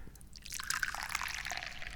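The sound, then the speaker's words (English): Tea, a Dahong Pao, pours from a teapot into a teacup as a steady liquid trickle. It starts after a brief quiet moment and runs on evenly to the end, with no talk. “let's grab the teacup, let's grab the teapot, and let's pour some of that tea.”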